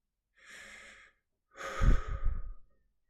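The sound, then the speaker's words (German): Heavy breathing: two audible breaths, a softer airy one followed by a louder, longer and rougher one with a raspy low edge. “Er merkte seine Atmung. Die war ganz schnell und auch ganz schwer.”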